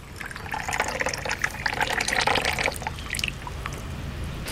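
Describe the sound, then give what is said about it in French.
Water is poured to prepare matcha tea, a bright splashing, filling pour that stays fairly loud for several seconds and then trails off into faint dripping, with no talking. “Donc là, vous allez mettre de l'eau.”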